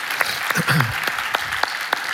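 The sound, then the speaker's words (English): A church audience applauding, a dense steady patter of clapping with a few sharper claps standing out, lasting the whole short stretch, with a brief voice underneath. “Would you applaud the Lord there and believe him?”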